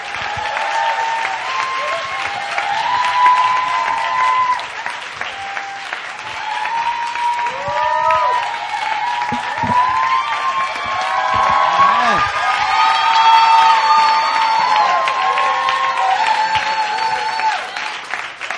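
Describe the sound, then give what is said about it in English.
A church audience applauds and cheers to welcome a visiting minister to the stage: loud, sustained clapping mixed with whoops and shouts, holding strong for the whole stretch with small swells. “So open up your hearts and let's put together our hands and welcome up Rodney Henderson.”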